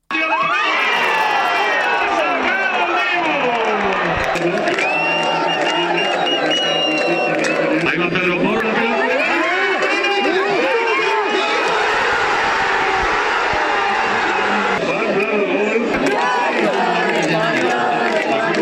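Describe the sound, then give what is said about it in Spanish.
A crowd celebrates a World Cup final win at Centro Botín with loud, continuous cheering, shouts and high excited voices that overlap and surge without a break. “Sonido de anoche en el Centro Botín, uno de esos puntos en los que se pudo ver esta final que se sumaba a otros tantos rincones de la comunidad autónoma que vivían esta victoria con mucha emoción.”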